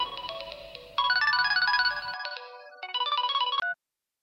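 An electronic ringtone signals an incoming phone call in a video game: a bright, looping melodic tune of quick repeated notes that cuts off abruptly near the end, leaving silence.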